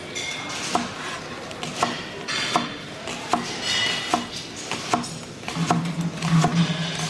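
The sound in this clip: Onions are chopped with a knife on a board, giving a steady series of many sharp knocks at an even pace, moderately loud, with no voices.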